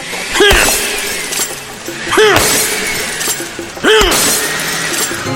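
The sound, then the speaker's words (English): A sledgehammer smashes a mixed concoction to pieces: three loud crashing impacts with glassy, shattering breakage, evenly spaced about two seconds apart, with a ringing clatter that trails off after each blow. “keep mixing everything until you're bored with what you're looking at, and then smash it into little pieces with a sledgehammer”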